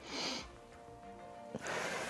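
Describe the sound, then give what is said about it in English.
Forceful breathy exhales blown out during abdominal crunches: two short, hissing rushes of air, one at the start and one near the end, quiet and separated by a faint low hum. “take a deep breath. And what I want you to do is blow it out at the same time, crunching this abdominal area”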